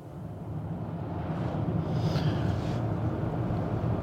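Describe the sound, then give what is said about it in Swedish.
Car driving along road 331 toward Sollefteå: a low, constant rumble with wind-like noise, growing a little louder partway through and then holding steady. “Jag eh, åker här på väg 331 i riktning mot eh, Sollefteå.”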